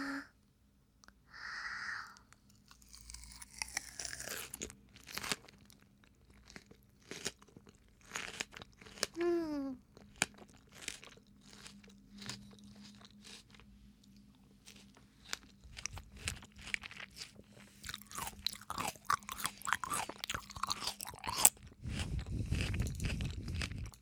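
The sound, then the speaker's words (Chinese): Someone crunches and chews melon: many irregular crisp bites and wet chewing sounds, mostly faint, continuing throughout with short pauses between bursts. “我要吃水果啊，喂我嘛”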